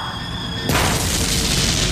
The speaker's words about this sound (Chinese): 炮弹发射之后，坦克整个弹了起来，接着炮身后座复位，炮塔里满是硝烟，巨大的轰鸣声在坦克里回响